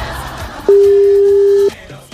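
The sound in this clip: A telephone ringing tone sounds while someone places a call: one steady, loud, mid-pitched tone lasting about a second, heard alone with quiet on either side.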